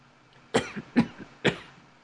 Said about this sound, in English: Don't be coughing now.